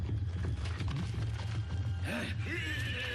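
Hooves clip-clop as horses are ridden off in pursuit, a quick, busy run of hoofbeats under a dense, even layer of other sound.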